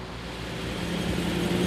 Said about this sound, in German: Punkt 16 Uhr macht sich die qualmende Karawane auf nach Anklam. 12 Kilometer Strecke. Hoffentlich bleibt alles dran. Zweitaktdunst zwischen den Rapsfeldern in Vorpommern.